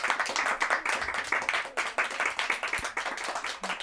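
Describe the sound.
An audience applauds at the close of a talk on feminism, with dense, steady clapping that stays fairly loud and even for the whole stretch.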